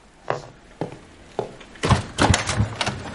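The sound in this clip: Knocking on a doctor's door, heard as three spaced, solid knocks followed by a denser run of quicker thuds, with no voices.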